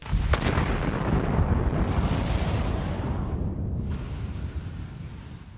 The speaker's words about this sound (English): pushed the big red button, and the rocket zoomed off into space, heading back to Earth.